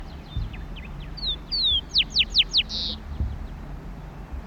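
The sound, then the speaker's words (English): A rufous-collared sparrow sings in open country with tall bushes on Isla Victoria. Its short, high whistled phrase opens with two slurred notes and runs into a quick series of steeply falling notes, then ends in a brief buzzy trill over a low rumbling background. “Zonotrichia capensis, rufous-coloured sparrow.”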